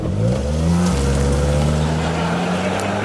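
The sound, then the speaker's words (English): A Ford Focus car driving off: a loud, continuous engine drone whose note climbs, briefly drops, then holds steady as the car pulls away. “Oh, dear. He's driven off in a Ford Focus.”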